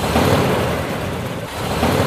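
A car engine idles in neutral gear, giving a steady, continuous low rumble with a broad mechanical hum that holds an even loudness throughout, dipping only briefly.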